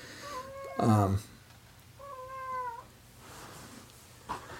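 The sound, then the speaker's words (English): A pet cat meowing: two clear meows, the first short and loud, the second longer and softer, with quiet stretches between them. “That's our cat.”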